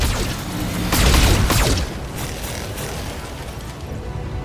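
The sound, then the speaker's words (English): Weapons firing in a mech combat video game, a dense barrage of booming, rumbling blasts and crackling bursts, heaviest in the first two seconds before settling into a steady noisy roar. “We'll just stand there and then fire and just shoot everything.”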